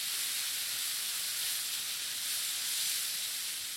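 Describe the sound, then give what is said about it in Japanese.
Onions sautéing with a little salt in melted butter in a frying pan give a steady, even sizzle that holds without a break throughout, with no talking. “ずフライパンにバターを入れて火にかけていきます。バターが溶けたら玉ねぎを加えていきます。ここに軽く塩をして炒めていてください。”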